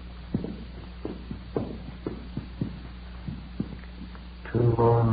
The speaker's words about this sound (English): We got a pass key from the room clerk on duty and started up the stairs.